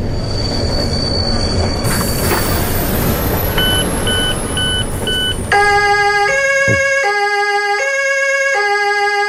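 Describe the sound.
An emergency vehicle siren sounds as a loud two-tone wail, alternating steadily between high and low pitches, after a stretch of shrill squealing train wheels and a few short beeps.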